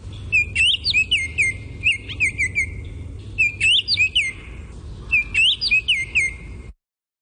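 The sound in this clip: Robin song, four bursts of high, clear, warbling whistled phrases separated by short pauses, over a faint low background rumble, ending abruptly.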